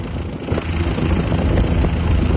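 Rumbling of an erupting volcano heard from a helicopter, a loud, continuous low roar thick with engine-like noise, steady throughout and without talk.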